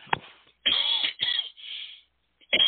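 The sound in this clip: Coughing and throat clearing from a speaker mid-talk: a few rough, raspy bursts of uneven length with short gaps between them, moderately loud and on their own.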